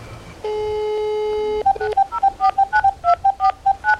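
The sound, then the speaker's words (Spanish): Telephone keypad dialing tones: a steady tone holds for about a second, then a quick run of many short, bright beeps follows in uneven rhythm. “Márcale de una.”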